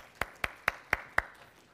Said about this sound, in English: why don't we give her just a good round of applause?